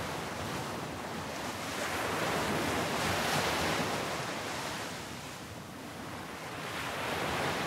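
Ocean waves wash onto a beach, a continuous broad hissing rush that slowly swells and eases, steady and fairly soft with no voices.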